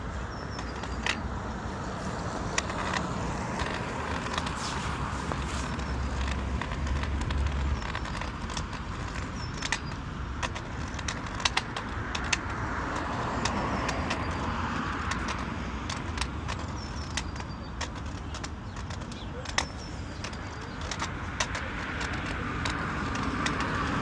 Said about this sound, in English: Here's me walking with a cane next to a busy street.